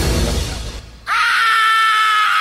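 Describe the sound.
A loud, sustained human scream bursts out after a brief pause, holding a steady high pitch for over a second, preceded by loud, dense noise.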